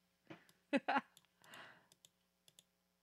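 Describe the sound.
Computer mouse and keyboard clicks come while someone cuts and pastes, as a scattered, irregular run of faint, sharp taps with a short, soft rustling burst in the middle.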